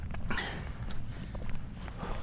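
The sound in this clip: Footsteps of a person walking on foot along slightly sloping ground, soft and fairly steady steps over a low rumbling background.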